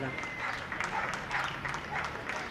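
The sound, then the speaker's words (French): Faint applause from many people joining the nightly 8 p.m. clapping for healthcare workers, a soft, steady patter of hands that continues evenly throughout. “Comme tous les soirs à 20h, on applaudit les personnels soignants.”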